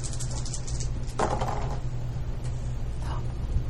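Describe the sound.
Dice rolled onto a table for a perception check in a tabletop role-playing game: a short rattling clatter in the middle, over a steady low background hum.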